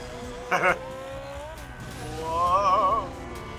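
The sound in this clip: A cartoon motorcycle revs and speeds off, with a short loud engine burst early on and a longer, wavering roar building later.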